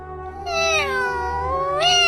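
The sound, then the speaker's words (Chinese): A kitten meows sadly in one long, drawn-out, wavering cry whose tone sags in the middle and then lifts again in a final whine near the end, heard alone without voices. “小猫咪也难过的哭泣着”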